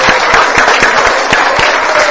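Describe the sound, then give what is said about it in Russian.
Loud applause from a group, dense clapping with a steady, regular beat of claps running through it from start to finish. “Спасибо, похлопаем всем друг другу.”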